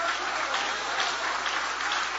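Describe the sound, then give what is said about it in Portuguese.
Congregation clapping at a church service, a thick, continuous wash of applause that holds a steady level from start to finish without speech over it. “Aplaude a Ele outra vez. Aplaude a Ele outra vez.”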